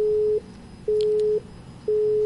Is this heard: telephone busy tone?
yes